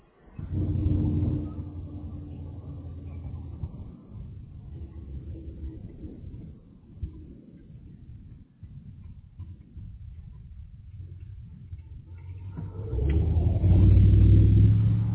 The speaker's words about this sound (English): Yeah, sorry, I'm driving. I had to turn.